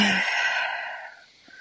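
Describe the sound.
A person takes a deep breath, heard as a soft, breathy sighing exhale that fades away over about a second and a half.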